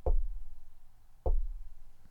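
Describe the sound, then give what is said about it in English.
Knocking on a door: two heavy, dull thuds about a second apart, each a low, booming blow with a short ring-off. No voices. “It's not like any other knocking I've ever heard.”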